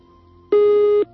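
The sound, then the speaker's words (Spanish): A telephone busy tone after a call to a radio show drops: a single steady, mid-pitched electronic beep lasting about half a second, loud and alone against a faint background hum. “Se nos ha cortado el teléfono”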